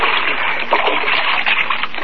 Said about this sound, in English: All right, now lean on that paddle.